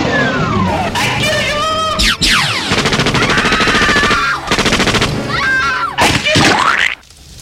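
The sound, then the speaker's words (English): Rapid, loud bursts of gunfire aimed at twitchy robots rattle on almost continuously for about seven seconds, laced with sweeping electronic tones, before cutting off abruptly. “Shoot first, ask later.”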